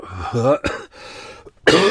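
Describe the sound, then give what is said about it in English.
Coughing from bronchitis with a tickly cough: a few loud, harsh coughs and throat clearing, broken up by voiced, groaning throat sounds. “Now it's a really tickly cough. It's really annoying. I just cough all the time.”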